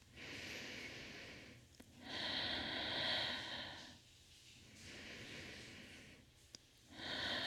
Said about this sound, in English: Let's take another big deep breath in.